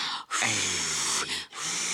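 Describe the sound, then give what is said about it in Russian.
Someone blows air to soothe a sore spot: a few sustained, breathy blows separated by short pauses, the longest in the middle, steady and fairly loud. “давайте я подую. Ну, подуйте, давайте. Пожалуйста. Дуйте. Так лучше?”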